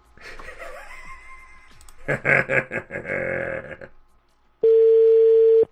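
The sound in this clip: A telephone tone after a dropped call sounds as a steady, loud single pitch at the end, following a stretch of muffled voices and grunting noises on the line.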